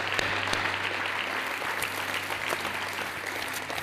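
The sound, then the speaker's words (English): A church audience claps together to welcome new believers, a steady, even wash of applause that holds for several seconds over a faint low hum. “Can we put our hands together and welcome believers into God's family?”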